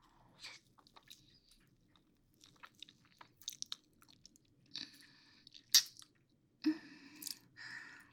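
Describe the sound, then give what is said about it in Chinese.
Someone eating cake: soft, moist chewing and biting noises in many short, scattered bursts, fairly faint, with no talking. “话说，今天买的蛋糕还没有吃呢，要不要尝一下？”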